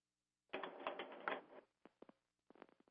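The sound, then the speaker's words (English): Keyboard keys clatter in a fast, dense burst of typing during a meeting, then a few separate clicks follow after short pauses, crisp and fairly faint. “I'm typing away here.”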